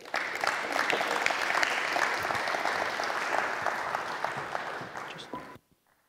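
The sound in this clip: Audience applause welcomes a speaker: a dense, sustained wash of many hands clapping holds steady, then stops abruptly near the end.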